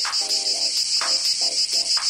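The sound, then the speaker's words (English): Cicadas buzzing in Iowa: a loud, steady, high-pitched insect drone runs throughout, with a few recurring lower rasping pulses underneath. “This is the sound of a cicada.”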